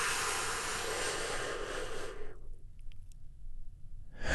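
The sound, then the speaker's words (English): A deep breath during a guided calming meditation, heard as a long, airy hiss lasting about two seconds before dropping away to near silence. “Take another big, deep, healing breath with me right now. Here we go. And”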